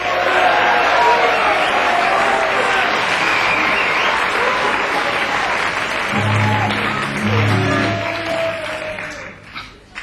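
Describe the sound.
A studio audience applauds to welcome Mike Nesmith, the former Monkees member, onstage: dense, steady clapping that holds strong throughout before thinning toward the end.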